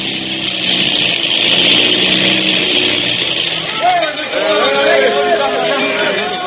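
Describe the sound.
A small airplane's motor drones steadily and loudly as the plane circles on the last of its gas before an emergency landing attempt.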